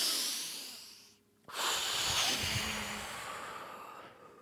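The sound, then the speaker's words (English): A deep breath is blown out at lit candles: a quiet intake, a brief hush, then a long, forceful hissing exhale that slowly fades over about three seconds. “There are still candles left lit. So take a deep breath in. There's still one candle left that's burning.”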